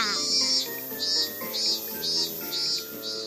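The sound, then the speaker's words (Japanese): Cicadas chirp in a regular pulsing rhythm, with several high, buzzy bursts repeating at an even pace over a faint steady lower hum. “正解はセミの鳴き声でした。”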